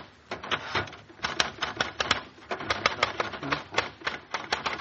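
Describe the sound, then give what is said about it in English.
A typewriter clacks as a card is typed up, a dense, fairly steady run of sharp mechanical keystrikes lasting throughout, with no talk over it. “give me your card, and I'll type it up for you. Just like I did Molly's.”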